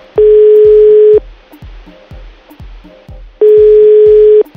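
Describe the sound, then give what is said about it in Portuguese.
A phone line sounds two long, steady mid-pitched tones after a dropped call, each lasting about a second and spaced a couple of seconds apart, with a faint regular ticking pulse running between them. “Caiu a ligação.”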